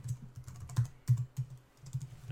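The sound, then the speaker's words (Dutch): Someone types a password on a computer keyboard, making many quick, irregular keystrokes. Each is a light click with a soft low thud, in uneven bursts with short pauses, and no voices. “We gaan nu even een satisfying ASMR horen. Van ik die een toetsenbord doet.”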